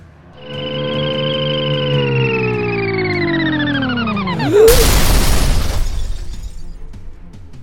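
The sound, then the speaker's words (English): A magic missile spell sound effect for a tabletop role-playing game: a loud, bright, harmonic synthetic tone that slides gradually downward, then bursts into a shattering crash whose noisy tail slowly fades. “Hear the grueling effects of a magic missile dealing the last bits of damage to fell a humanoid monster.”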